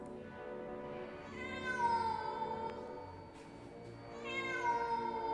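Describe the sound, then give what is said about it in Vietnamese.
A cat yowling in long, wavering harmonic wails: a continuous moaning cry that swells into two loud, drawn-out screeches, with no other sounds. “Chỉ trong tích tắc, con mèo biến mất, nhưng tiếng kêu của nó vẫn dường như văng vẳng đâu đây.”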